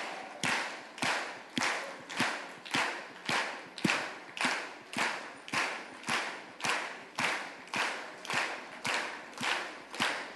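Rhythmic hand clapping along to a worship song, a steady, even beat of crisp claps at roughly two per second, moderately quiet and with no voices.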